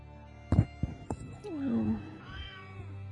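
A cat meows a few times: short, sharp cries followed by a longer, wavering meow that bends downward in pitch, then a softer, fainter cry near the end.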